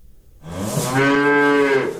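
A calf moos in a farmyard: one loud, sustained, low call rising into a steady tone for over a second and a half, heard alone with no talk.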